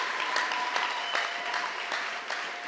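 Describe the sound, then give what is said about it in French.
A church audience claps for the Lord during a thanksgiving service, the hands striking together in a regular, evenly spaced rhythm, fairly soft and steady throughout. “Est-ce qu'on peut acclamer le Seigneur? Can we clap for the Lord?”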